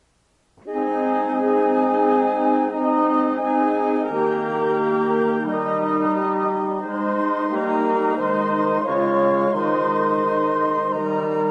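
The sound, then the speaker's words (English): A full woodwind choir plays an arrangement, entering after a moment of silence with rich, sustained chords that change every few seconds at a steady, even loudness. “With a full woodwind choir, the same arrangement sounds like this.”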